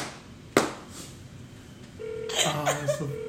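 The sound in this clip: Faint electronic phone tones as a call goes through to voicemail: a single sharp click, a quiet pause, then a short run of soft steady tones and beeps near the end.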